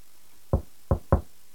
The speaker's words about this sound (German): Er legte das Ohr an die Tür, klopfte sacht an und flüsterte: Hallo.